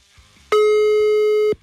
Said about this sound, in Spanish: Cállense, estoy marcándole.